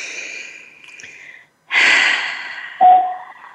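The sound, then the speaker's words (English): A group takes a deep collective breath during a guided reflection exercise: breathy airflow, then a brief silence, then a loud, full inhale and a shorter, sharper catch of breath, with no talking. “I want you just to think about that for a moment. Breathe that in. We'll take another collective breath together.”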